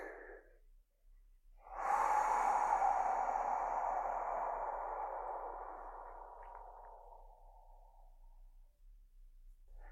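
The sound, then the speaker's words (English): Slow, deep breath taken to ground and center: a soft breath is followed by a long airy rush that swells abruptly and then fades gradually over several seconds, heard alone without talk. “I'll just like invite a couple of breaths to just kind of like ground and center for myself. Feel free to join me.”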